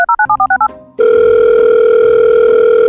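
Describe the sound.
A telephone call being placed to a relative: several quick touch-tone dialing beeps, then a steady, continuous line tone as the call rings through.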